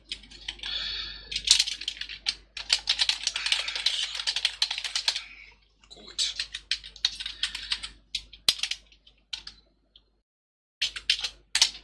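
Typing on a computer keyboard: many quick, faint key clicks in irregular bursts broken by short pauses, over a low, steady hum.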